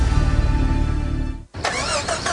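Car engine failing to start because of a weak battery, a steady sluggish cranking churn that never catches and then cuts off abruptly.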